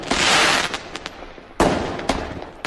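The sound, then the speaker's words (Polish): Fireworks exploding in a few sharp booming bursts, each trailing off into crackle, with a strong opening blast and later bangs following at uneven intervals; no voices. “To znaczy dla zwierzęcia te wszystkie wybuchy fajerwerków.”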